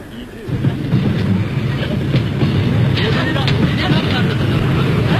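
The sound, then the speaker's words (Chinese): A train runs on rails in winter, a steady heavy rumble with a rhythmic clatter of wheels. It starts slightly quieter, then holds loud and continuous to the end. “两个刑警压着耕作坐上火车”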